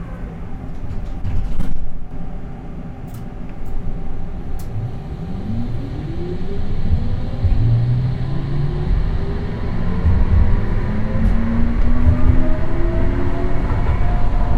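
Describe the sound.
A tram ride on a city tram line heading out from the main station: a continuous low rumble of rolling wheels with electric motor whines that climb in pitch as the car accelerates, with no voices heard.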